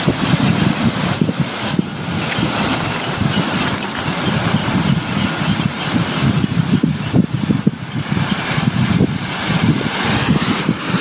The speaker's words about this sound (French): Je vais vous faire écouter la mer.